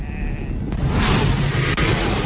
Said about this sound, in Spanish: Las ovejas se están rebelando.